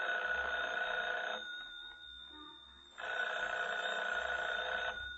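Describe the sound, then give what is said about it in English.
A telephone rings in two long, loud, steady bursts separated by a short quiet gap, with a faint low hum underneath and no talk. “Should I answer it? Answer it. Hold the receiver up, that's right.”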